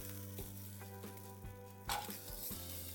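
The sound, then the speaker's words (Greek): Smoked summer sausages fry in a cast-iron or nonstick pan with a quiet, steady sizzle, broken once midway by a brighter burst of crackling. “Περνάμε από ένα μαντεμένιο ή ένα αντικολλητικό τηγάνι, αυτά τα υπέροχα καλοκαιρικά λουκάνικα.”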